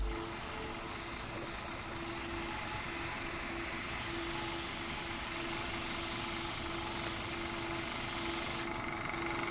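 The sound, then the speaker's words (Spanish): Steady hiss of a spray bottle wetting the cover of a manual, a continuous, fairly faint rush of mist with no pauses and no voices. “Joshua, que con movimientos precisos rocía la tapa del manual con un pulverizador.”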